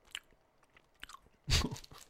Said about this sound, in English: I'm gonna do some crinkling ASMR.